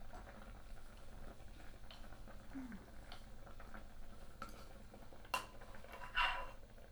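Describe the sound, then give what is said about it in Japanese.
Dashi broth simmering in a pot, a faint, continuous low bubbling and crackle, broken by two sharper knocks near the end. “ねえトマちゃん、だし減っちゃうから火弱火にして、煮詰まっちゃう。”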